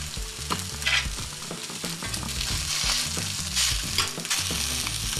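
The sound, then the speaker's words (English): Schnitzel frying in a small amount of oil gives a steady, dense sizzle with crackling that carries on loudly throughout, with no talking. “And hear it sizzle? Oh, it's perfect. It didn't take much oil at all.”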